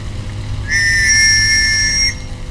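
A screechy whistle used for dog training gives one sustained, piercing blast of about a second and a half at a steady high pitch, loud above a low background hum.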